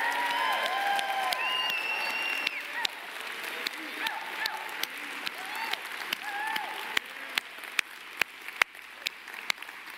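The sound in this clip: Church audience applauds and cheers in appreciation: a burst of clapping with a few whoops at first, thinning over time to scattered individual claps.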